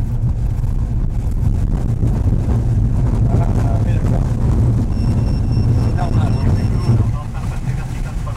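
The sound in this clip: A tow plane's engine drones as it rolls for takeoff on a runway, pulling a glider. The loud, continuous rumble is mixed with wind buffeting and holds steady throughout, easing slightly near the end.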